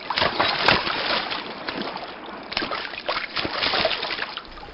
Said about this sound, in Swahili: Kwa kutumia bakora iliyo mkononi mwangu, nitayagonga maji ya mto Nile na yatageuka kuwa damu.